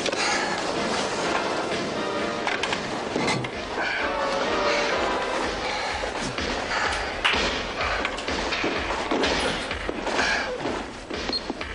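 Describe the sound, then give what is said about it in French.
Explosion from an action film as a missile silo is destroyed: a loud, dense roar and rumble that holds steady throughout, with scattered heavy thuds and crashes. “Et voilà, ça explose, on adore ça. Écoutez bien ça. C'est parce qu'il y a un silo ici de missiles, il faut qu'ils le détruisent.”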